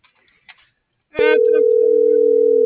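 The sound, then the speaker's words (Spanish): A telephone dial tone: a few faint brief sounds, then at about one second a steady, loud, low continuous tone that holds to the end. “Ya se me olvidó quién le estaba marcando.”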